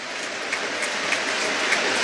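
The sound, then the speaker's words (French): A stadium crowd holds a minute of applause as a memorial tribute, an even, unbroken roar of clapping. “il y a cette minute d'applaudissement qui résonne particulièrement, vous vous en doutez, aujourd'hui.”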